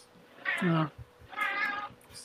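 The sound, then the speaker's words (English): A cat meows twice: two drawn-out, fairly loud mews with a short pause between them. “Is that your cat or is that your ringtone? That's my cat. Jesus, that was like pretty much on cue, like meow, meow, meow, meow, meow.”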